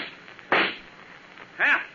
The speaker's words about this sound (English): Too bad I had to shoot him.